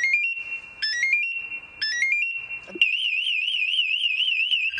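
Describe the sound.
A firefighter's motion alarm sounds three quick runs of rising electronic beeps, each settling on a held tone. It then breaks into a continuous, piercing warbling alarm that stays loud to the end.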